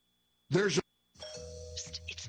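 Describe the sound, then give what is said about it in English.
A brief doorbell chime rings once, short and bright, and is followed by talk. “Doorbell.”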